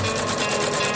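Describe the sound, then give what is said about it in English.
Socks being machine-stitched in Australia, a rapid, continuous mechanical whirr with fast repeating ticks, loud and steady for about a second. “Socks being stitched.”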